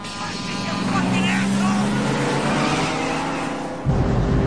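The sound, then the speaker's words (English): A car skids onto a main road on a rain-swept road, narrowly missing an oncoming truck: a steady, loud engine roar mixed with broad hissing noise, ending in a low thump near the end. “The car skids onto the main road, narrowly missing a truck coming in the opposite direction.”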